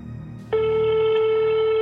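A steady electronic telephone tone sounds on a recorded call to a taxi driver's home. It starts abruptly after a low hum and holds at one even pitch, clear and moderately loud, to the end.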